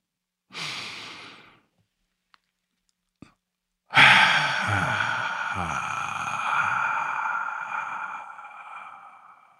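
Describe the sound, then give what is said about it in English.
A deep breath: a short breathy draw, a quiet pause broken by a couple of faint clicks, then a long, loud, sighing exhale that stretches over several seconds before cutting off. “let's take a deep breath.”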